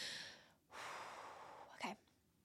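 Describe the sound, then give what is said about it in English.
A group of people in a guided breathing exercise draw a deep breath in and let it out, producing soft, breathy rushes of air that swell and fade, with a brief voiced edge near the end. “Another deep breath for this one, girls. In with the love, out with the hate.”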